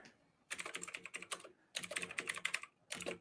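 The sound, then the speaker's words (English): Quiet, rapid clicking of typing on a computer keyboard, in three runs of quick keystrokes separated by short pauses. “I'm gonna type.”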